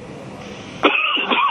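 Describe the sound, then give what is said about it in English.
A man coughs to clear something caught in the back of his throat. After a quiet stretch, one abrupt, loud cough bursts out and is followed by a short, rough throat clearing. “Excuse me, Graham, sorry. You need to start again, yet? No worries. I'm just getting something caught in the back of my throat.”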